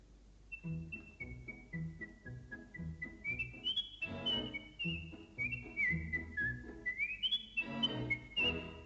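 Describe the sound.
A boy whistles loudly, carrying a lively melody whose pitch steps up and down in short runs and sustained notes over a busy, low background.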